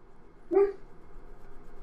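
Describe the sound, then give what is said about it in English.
A person imitates a growl in character during a tabletop fantasy game: one short, low, voiced snarl lasting well under a second, fading quickly over a faint background hum. “I'm growling.”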